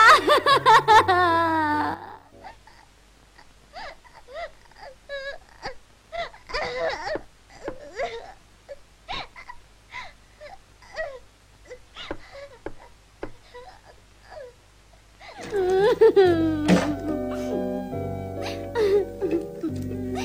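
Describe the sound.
A young girl cries and sobs: loud, drawn-out wailing at the start and again near the end, with softer broken sobs and gasping breaths in between.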